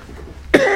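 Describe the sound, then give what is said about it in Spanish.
A single sharp, loud cough bursts out from a person with a cold or allergy, breaking a quiet stretch of faint low hum. “Estaba tratando de evitar la tos, pero no hubo manera.”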